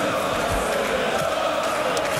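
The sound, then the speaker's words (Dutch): A darts crowd at a World Cup of Darts evening session sings and chants, making a dense, steady wash of many voices that stays loud throughout. “Nou, het publiek dat er is, heeft er in ieder geval heel veel zin in. Want we zijn halverwege de avond zo'n beetje. En ze houden niet op met zingen.”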